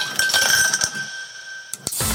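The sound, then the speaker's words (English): Glasses clinking as drinks are prepared: a ringing glassy tone lingers for over a second, then a few sharp, bright clinks follow in quick succession near the end. No voices. “Pour the drinks and start the theme song.”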